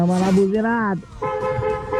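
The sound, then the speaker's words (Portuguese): A car horn gives a steady, sustained toot after a short stretch of a person's voice. “Vamos lá, vamos buzinar essa bagaça, vai.”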